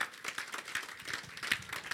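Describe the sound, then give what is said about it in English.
Rhythmic clapping from a church audience, a quick, steady beat of sharp hand claps repeating evenly across the moment at a fairly soft level. “Clap for the Lord. You won't clap too.”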